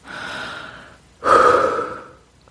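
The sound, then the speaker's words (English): A deep belly breath: a long, airy inhale fades out, then after a brief pause comes a louder, rushing exhale that slowly tapers off, with no talking. “Now, take a deep belly breath”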